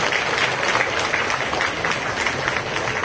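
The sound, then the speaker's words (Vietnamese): Loud, sustained applause from a Buddhist gathering in the grounds of Giác Ngộ pagoda during its restoration, many hands clapping in a steady, unbroken roar. “xin tất cả chúng ta hãy dành một tràng vỗ tay thật lớn, thật mọi người,”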